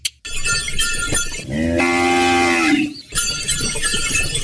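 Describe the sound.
Cattle pulling a bullock cart give one long, drawn-out moo, a deep voiced tone framed by stretches of harsh, noisy clatter before and after.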